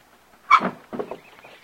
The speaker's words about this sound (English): Al cracks the window open again.